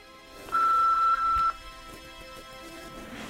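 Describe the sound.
A single steady electronic keypad tone while dialing a phone number, loud and lasting about a second with a brief break midway, over a quiet background hum.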